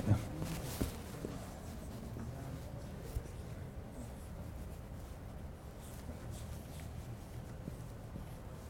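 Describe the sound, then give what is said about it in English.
Faint scratching of writing on a board scrapes along quietly and steadily, with a couple of soft taps near the start. “Who are spelling challenged? Would you write it on the board?”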